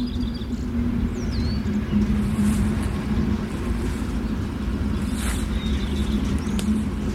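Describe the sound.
A train drives on with a steady, continuous low rumble and a droning hum, holding an even loudness for about seven seconds with no voices.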